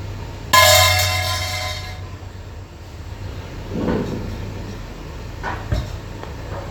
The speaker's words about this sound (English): What was it? Hitting the thermos. Hitting the thermos. Yes, with what?